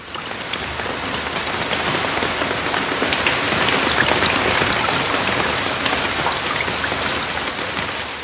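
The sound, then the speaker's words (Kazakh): Heavy rain mixed with hail pours down on open steppe. It makes a dense, steady hiss of drops striking surfaces, loud and unbroken from start to finish, with no voices. “Екеуі оның жанына келгенде, бұрша қаралас жаңбыр төгіп жіберді.”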